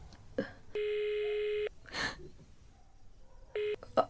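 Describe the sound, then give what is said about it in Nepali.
Ringback tone of an outgoing phone call: two buzzing electronic rings, the first about a second long and the second cut short, with faint breathy noise between them. “आस्था दिदीले number पठाइदिनु भएछ अब उत्तम दाईलाई call गर्नु पर्यो”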